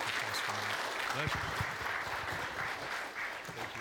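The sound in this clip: A church audience applauding a guest preacher at a Sunday service: dense, steady clapping runs without a break, with voices heard over it.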